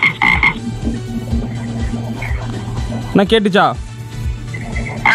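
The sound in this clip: A frog croaks in a low, rhythmic series of pulsed calls that repeat steadily throughout. A person's voice briefly speaks over the croaking partway through.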